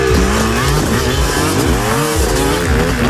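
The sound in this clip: Motocross motorcycle engines rev loud and unbroken at a motocross event, their pitch sweeping up and down as the throttle opens and closes.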